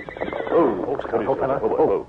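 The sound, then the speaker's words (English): A stallion whinnies a low warning after sensing danger, a wavering, harmonic neigh that pulses in a few bursts over about two seconds. “Sensing danger, he broke his stride and whinnied a low warning.”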